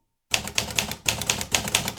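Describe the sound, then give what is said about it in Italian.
A QWERTY typewriter clacks rapidly after a short silence, a steady run of sharp, even keystrokes in a regular rhythm that carries on to the end. “Si diffonde poi sempre più anche nelle redazioni italiane l'uso della macchina da scrivere QWERTY, di origine anglosassone.”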